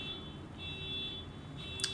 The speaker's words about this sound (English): I apologise for the beeping car that you can hear in the background, listeners.